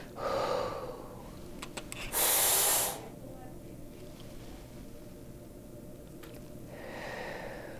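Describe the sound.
A quick breath drawn in through an inhaler, heard as one short, loud, hissing rush of air with softer breathing before and after it.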